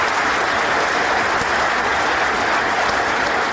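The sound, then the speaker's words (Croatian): Parliament deputies of the ruling majority applaud and give an ovation after a speech in the Serbian parliament, a loud, unbroken roar of many hands clapping that holds steady from start to finish. “Vučićevo izlaganje ispraćeno je ovacijama i višeminutnim aplauzima poslanika vladajuće većine predvođene njegovom Srpskom naprednom strankom.”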